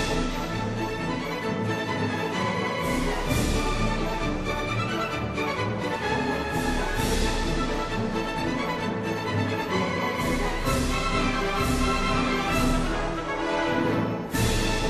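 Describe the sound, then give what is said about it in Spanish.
Orchestral music from the prelude of Bizet's opera Carmen, played full and brisk with bright strings and brass. Repeated cymbal crashes punctuate the loud, steady texture throughout. “Claro, y es que Carmen es mucha Carmen. Vamos a escuchar el preludio, que además a todos os va a sonar muchísimo, porque es una de las músicas más conocidas de la historia.”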